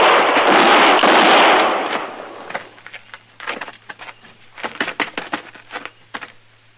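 A gunshot fired during a confrontation: a loud, broad blast rings out for over a second, then gives way to a scatter of sharp, crackling pops and rattles of varying strength; no voices are heard.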